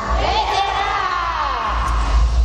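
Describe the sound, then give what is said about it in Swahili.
Celebratory ululation from a church audience, wavering high trills overlapping one another over a crowd cheering, loud and continuous throughout with a steady low rumble underneath. “Vigelegele vya shangwe kwa baba.”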